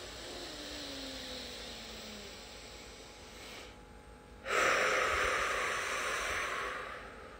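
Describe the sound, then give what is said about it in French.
Deep breath out during a breathing exercise: a long, loud, airy whoosh that starts abruptly after quieter breathing and fades gradually over a few seconds. “Et on souffle. On va faire ça une deuxième fois, parce que je trouve que ça fait du bien.”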